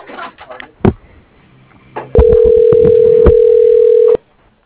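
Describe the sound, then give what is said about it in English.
A telephone ringback tone plays while a call is transferred to an electric company: a single steady, mid-pitched tone holds for about two seconds and then cuts off abruptly, preceded by a few faint clicks and rustling on the line. “Wait while I transfer your call.”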